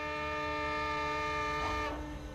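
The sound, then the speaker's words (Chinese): A departing military train sounds a long whistle, a loud, steady, harmonically rich horn tone held for over two seconds before it cuts off near the end. “随着长长的汽笛声，军列开动了。”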